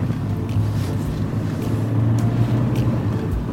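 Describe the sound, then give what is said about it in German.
Steady low engine rumble of a car setting off along a road, a continuous even drone with a faint wind-like hiss and no voices. “Das heißt, wir fahren über die L412. Richtung Villeracher Talsenke. Gut, auf geht's.”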